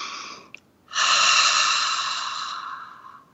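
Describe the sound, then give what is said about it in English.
A single long, deep inhalation during a guided breathing exercise, strong and breathy, drawn steadily for about two seconds and fading gently at the end, with a short faint click just before it and no talking. “So a breath in.”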